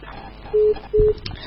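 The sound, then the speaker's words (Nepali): Telephone dialing tones as a caller punches in a number: two short, evenly spaced electronic beeps of the same pitch over faint background noise. “उहाँ सायद पहिलो पटक phone dial गरेर पनि होला, बोल्नै सक्नु भएको छैन। एकदमै पनि गाह्रो पो छ त हो फोन डायल गर्न पनि।”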